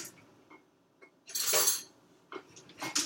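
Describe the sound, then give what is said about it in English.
Metal spoon clinks and rattles faintly among cutlery as a spoon is grabbed in a kitchen before opening a tube of biscuits. A soft clatter is followed by a louder jangle and a final brighter clink. “You got to grab a spoon.”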